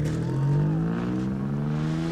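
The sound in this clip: A car engine revs as the vehicle is driven away, a loud droning engine note climbing steadily in pitch with layered harmonics.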